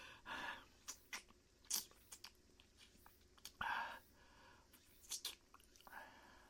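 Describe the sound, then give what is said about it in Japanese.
Soft, wet kissing sounds: a series of faint mouth smacks and clicks come in irregular bursts, very quiet and close. “おいしいキス、ハマっちゃいそうだな。”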